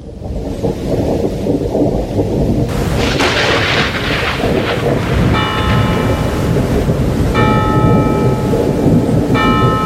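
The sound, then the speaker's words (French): A church bell of Notre-Dame rings out in the middle of the night. A few resonant tolls sound over a loud, continuous rumbling of thunder and rain. “La cloche. La cloche de Notre-Dame qui s'était mise à sonner en pleine nuit.”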